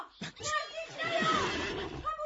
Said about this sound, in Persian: اسب. چی شده؟ اسب دیوانه شده.